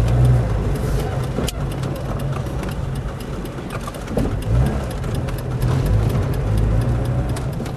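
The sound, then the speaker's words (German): An old, nearly broken-down car drives along a city's barbed-wire fence. Its rough, steady engine rumble continues throughout, broken by scattered clicks and knocks. “Mariassow fährt uns mit seinem alten, fast kaputten Wagen am Stacheldrahtzaun der Stadt entlang.”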